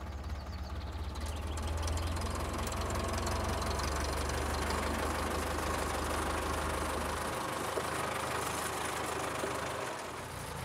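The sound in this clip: A tractor engine idles on a farm with a steady, loud, knocking diesel throb over a deep low rumble. The rumble drops in level near the end, and no one talks.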